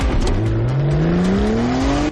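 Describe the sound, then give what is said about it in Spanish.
A Porsche accelerates hard at full speed toward a level crossing, its loud engine roar climbing steadily in pitch over two seconds. “Mikkel pisa a fondo. El Porsche avanza a toda velocidad hacia el paso a nivel.”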